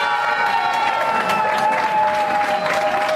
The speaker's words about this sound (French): Acclamée par les autres participants, l'équipe victorieuse ne cache pas son émotion.